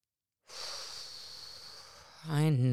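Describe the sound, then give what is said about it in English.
A group prompted to take a deep breath together: a long, soft, airy breath rises suddenly out of silence and holds for nearly two seconds. A person then starts talking. “Should we all take a deep breath together?”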